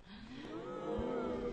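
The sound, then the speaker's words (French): A cow moos among a large herd in the Vercors: one long, low, sustained call with a rich tone that grows slightly louder toward the end. “nous voici avec beaucoup de vaches”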